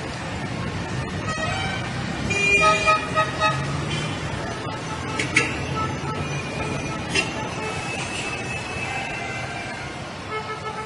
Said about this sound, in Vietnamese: đường lên Chí Hòa thiên hạ qua lại dập dìu, xe hơi, xe thổ mộ chạy liên tiếp, tiếng kèn với tiếng chuông nghe không dứt.